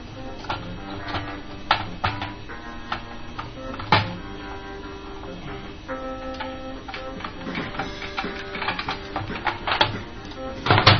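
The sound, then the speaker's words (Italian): Wire strippers click and snip while wires are stripped during a radio modification and antenna removal, producing many sharp, irregular metallic clicks and ticks with short pauses between them. “Ecco qua. Ora ho spellato i fili.”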